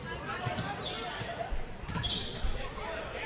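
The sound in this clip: A basketball is dribbled on a court during a girls' basketball game. A few dull, low thumps rise over steady gym noise and a murmur of voices.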